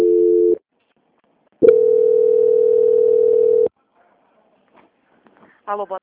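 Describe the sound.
Telephone tones sound during a call transfer: a short steady tone, a pause, then a longer sustained tone of about two seconds at the same pitch. Quiet follows, with a few faint brief sounds near the end.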